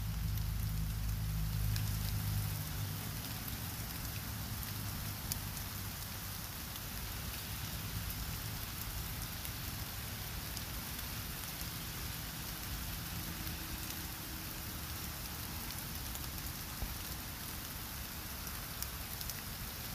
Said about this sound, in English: Can you hear the raindrops?